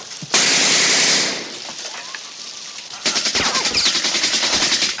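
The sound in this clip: Submachine gun fire from a weapon taken from a dead German soldier in a WWII film scene: a loud rushing burst of noise comes first, then a rapid, sustained stream of sharp automatic shots over the last two seconds.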